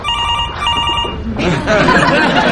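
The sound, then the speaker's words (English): A mobile phone ringtone plays as a steady, bright electronic ringing pattern for over a second, then gives way to a broader, noisier wash of sound. “Oh, that's my phone.”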